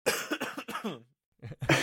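Coughing and throat clearing: a quick run of harsh coughs that trails into a throaty rasp, a short silent pause, then a couple more loud coughs.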